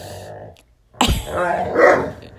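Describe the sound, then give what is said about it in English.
A dog barks while playing with a tug toy alongside another dog. After a quiet stretch, one sharp bark breaks in, followed by rough, sustained growl-like noise of moderate loudness. “Quiet! No barking.”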